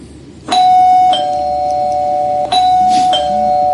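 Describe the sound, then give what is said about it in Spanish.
A radio station's doorbell sound effect chimes twice as a two-tone ding-dong. Four bright, clear bell tones ring out in two pairs, each note sustaining with a lingering ring. “Llamamos y luego el timbre de la radio que suena así.”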